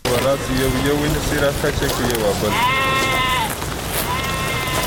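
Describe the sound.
Sheep bleat loudly in a village flock being readied for slaughter to make dried winter meat. The wavering, nasal cries overlap one another, and a long, steady bleat stands out near the middle.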